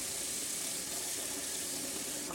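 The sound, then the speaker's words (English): Water runs steadily over a zester that was just used for orange zest, rinsed in a kitchen while preparing spicy orange sesame chicken. A continuous, even hiss of flowing water fills the whole moment without pause. “Now it says to grate them. So I'm going to rinse off my zester that I used for the orange zest.”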